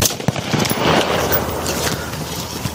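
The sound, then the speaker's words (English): Gunshots fired during a police shooting between trailers: a few sharp cracks break through rough, noisy background sound. “shots fired, one male down”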